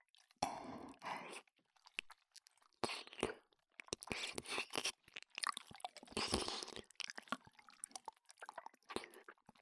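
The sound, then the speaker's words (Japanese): Close, wet ASMR mouth sounds of sucking and slurping saliva as if from deep in the ear: many irregular bursts of squishy, clicking noise with brief silences between, fairly quiet overall. “耳の奥に溜まった私の唾液吸ってあげますね。”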